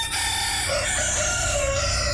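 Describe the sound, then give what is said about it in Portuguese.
Two roosters crowing, their long drawn-out calls running together over a loud, steady bed of background noise. “Dois galos cantando.”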